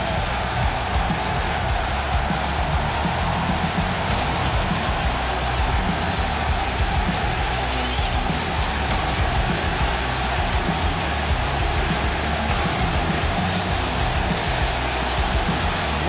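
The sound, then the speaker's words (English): A wrestling arena crowd in New York roars loudly and continuously, a dense, unbroken wall of cheering noise that holds at a steady level throughout, with no distinct breaks. “New York is AEW country. You can hear it.”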